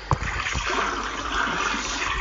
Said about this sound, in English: Whoops! That was a bit too close. Let me swim closer and see what it is.